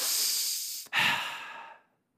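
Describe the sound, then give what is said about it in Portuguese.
Breathing, made as a sound during a sermon: two long, airy, hissing breaths back to back, the second slightly fuller before trailing away, soft and alone without speech. “o som mais próximo do nome que Deus pronunciou para Moisés é um som de respiração.”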